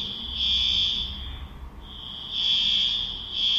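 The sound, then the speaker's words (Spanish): An internal building alarm rings with a loud, steady, high-pitched electronic tone that sounds alone, dips briefly in the middle, then returns at full strength. “Es una alarma. Dice, interna.”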